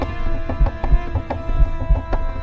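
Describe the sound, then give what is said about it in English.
A heartbeat sound effect in an audio drama, marking a character's racing heart: low, soft thumps in a steady pulsing rhythm over a sustained hum. “Jen's heart beats out of its socket.”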